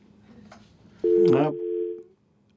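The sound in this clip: A telephone tone after a radio caller's line dropped, a single steady, fairly loud electronic beep lasting about a second before fading out.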